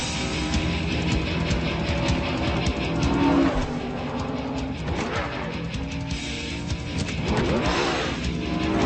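Race cars accelerate as a race restarts under the green flag after a track cleanup, with a dense, loud, continuous engine roar and a few swelling changes in engine pitch.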